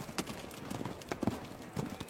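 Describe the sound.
Horse hooves clip-clop as a horse-drawn carriage passes through the gate into a city, a quiet, uneven run of many hard clops over a soft background hiss.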